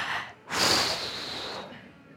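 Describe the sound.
A deep breath is drawn in a single breathy inhale lasting about a second, rising sharply and then easing into softer breath noise, faint overall, during a church sermon.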